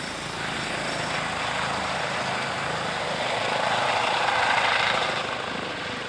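An emergency doctor's helicopter flies, making a steady rotor and engine drone that swells slightly louder toward the end and then eases off. No one speaks.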